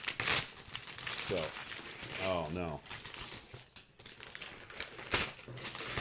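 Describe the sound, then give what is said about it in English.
Crinkling and crumpling as a heavy, taped package is handled to be opened, with scattered crackles running under people talking. “Why don't open it now? You want to do it now? Okay. Let's open it now.”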